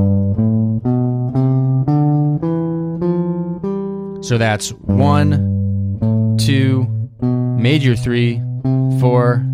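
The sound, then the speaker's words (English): A G Mixolydian scale played over a held G7 chord, a steady run of single notes ringing above the sustained chord, then a voice talks while the chord keeps sounding. “so if I have a G7 chord, I'm basically thinking C major, the C major scale, but I'm starting on G and ending on G. So it sounds like this.”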